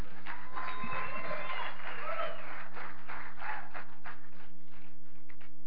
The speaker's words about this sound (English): So let's just give him a hand. Welcome him.